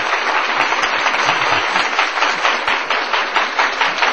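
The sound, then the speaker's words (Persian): Audience applause at a lively gathering, a loud, dense and continuous crackle of many hands clapping together, sustained at an even level with no speech over it. “کف بزنن یه دقیقه دو دقیقه از اون کفای خیلی قشنگ.”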